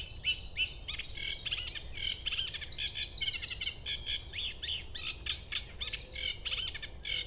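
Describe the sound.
A bird sings its highly varied, modulated song at dawn before sunrise: rapid high chirps, trills and warbled phrases that keep changing and continue throughout, fairly faint over a low, steady background hiss.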